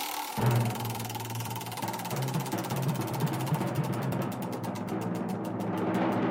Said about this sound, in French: Allez, pour la dernière fois, j'active la roue.